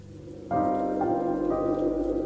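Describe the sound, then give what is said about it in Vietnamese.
Rain falls outside as a steady, even hiss beneath sustained tonal chords that shift every half second or so, loud and continuous throughout. “Ngoài trời vẫn cứ mưa.”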